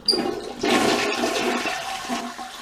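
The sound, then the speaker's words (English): A toilet flush sound effect: a short splash opens, then a loud, steady rush of water swirling down the drain that gradually fades away at the end. “And there it goes, circling down the drain.”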